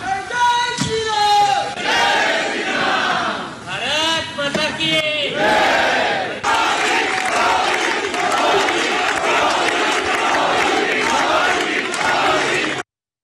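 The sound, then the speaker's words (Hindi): A crowd of the Indian community in France chanting slogans to welcome Prime Minister Narendra Modi. Loud, rhythmic shouted chants in unison open the stretch, then give way to continuous, dense crowd cheering that runs on until an abrupt cut. “इससे कबल France में भारतीय बिरादरी ने बोंजोर मोदी या hello Modi और भारत माता की जय के नारों के साथ वज़ीर-ए-आज़म नरेंद्र मोदी का खैर मकदम किया।”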